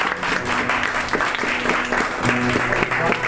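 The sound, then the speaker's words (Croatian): Audience applause greeting a veteran newspaper correspondent at an evening event, a dense, continuous clatter of many hands at steady loudness, with faint tonal sounds underneath. “Gospodin Braco Ćosić, također ga pozdravite pljeskom, naš dopisnik.”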